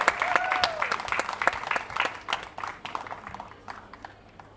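An audience applauds Indian craftsmen and artisans, with scattered, sharp claps that start fairly strong and thin out as they fade over a few seconds.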